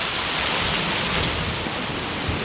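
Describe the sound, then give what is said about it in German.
Waterfall in a gorge: a loud, steady rush of falling water with a bright, hissing top, unbroken and even from start to finish with no voices. “Jedenfalls zum geilen Wasserfall.”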